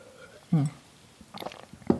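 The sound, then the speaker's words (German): A person takes a sip of a drink close to the microphone: a short gulping sound, then a few softer mouth and swallowing noises, all quiet. “warte, jetzt mache ich noch einen Schluck.”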